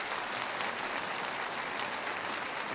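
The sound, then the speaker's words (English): An audience at a church gathering clapping in sustained, dense applause, an even wash of many hands that stays loud without a break. “You don't know why you're clapping.”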